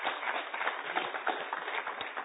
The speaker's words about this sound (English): Let's put our hands together and welcome our awesome brother.